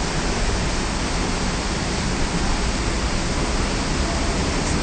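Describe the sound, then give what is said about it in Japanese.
Fountain water pours over an arched tunnel at Ichinohashi Shinsui Park, making a steady, dense rushing hiss that stays even and unbroken throughout, with no voices. “そしてこう噴水がアーチ型の上を通っていて、その中を通ることができて、トンネルの上にお水がバーッと流れているところにいるんですけども、”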